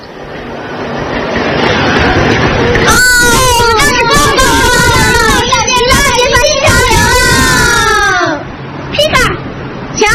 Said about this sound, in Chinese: 那我就哭。嗯， 别亲爱的小姐，别哭了